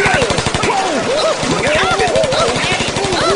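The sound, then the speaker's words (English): Machine gun fire from heavily armed soldiers opening fire inside an ice cream shop: rapid, evenly spaced loud shots rattle continuously while voices shout over the gunfire. “Open fire!”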